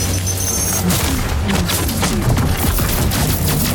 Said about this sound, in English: Got this in covering fire. It's a grenade.